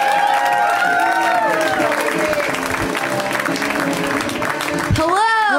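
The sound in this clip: Comedy audience applause and cheering as two comedians are welcomed to the stage, a dense, steady wash of clapping that runs the whole time with voices rising above it.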